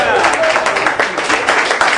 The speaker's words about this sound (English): So can you guys give yourselves a round of applause?